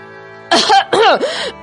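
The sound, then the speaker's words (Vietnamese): A person's cough in two rough, voiced bursts after a quiet moment. The second burst is longer and ends in a throaty rasp. Both are loud and stand alone without talk. “phá vỡ sự im lặng bao trùm bằng một tiếng ho”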